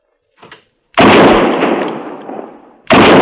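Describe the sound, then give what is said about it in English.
Gunfire aimed at an antelope: two loud, sharp blasts, the first trailing off in a long rumbling decay before the second cracks out at the end. “Yeah, beautiful shot, Willa. Now, what am I going to do with an antelope?”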